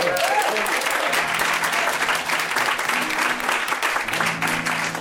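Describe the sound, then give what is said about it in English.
A crowd applauds as a comic songwriter is welcomed onto the stage, a thick, sustained wash of clapping that holds steady from start to finish. “Please, everybody here, put your hands together and welcome our lovely audience, Mitch Benn.”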